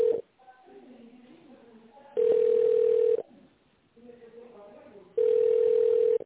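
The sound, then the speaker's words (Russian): Telephone ringback tone sounds while a call is being transferred: two long, steady, mid-pitched beeps about three seconds apart, with a fainter voice-like murmur in the gaps. “Сейчас я вас переведу на нашего менеджера Александра.”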